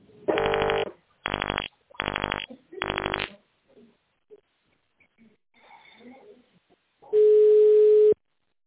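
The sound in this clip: Automated phone line beep: four short buzzy tone bursts, then a quiet stretch, then one long, steady pure beep signalling the start of recording.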